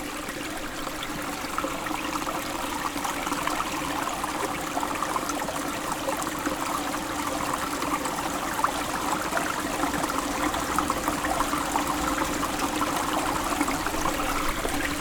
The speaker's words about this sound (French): L'eau est aussi claire que le son qui vous entoure.